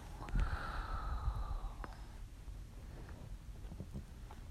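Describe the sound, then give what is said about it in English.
A deep breath, a single breathy rush of air lasting about a second and a half, followed by low, steady background noise with a few faint clicks. “So, why don't we just start off with some deep breaths? Por favor, inhale. and exhale.”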